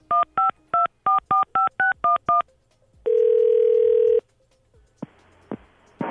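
A telephone number dialled on a keypad: a quick run of eight or nine dual-tone beeps, then one long steady tone lasting about a second, followed by a few faint clicks and bursts.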